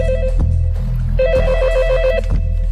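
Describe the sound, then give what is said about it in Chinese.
A telephone rings for a call to a Pakistani embassy in Belgium: two loud trilling bursts, the first brief and the second about a second long, over a steady low drone. “打给比利时巴基斯坦大使馆。 知道了， 把电话接到演播室。”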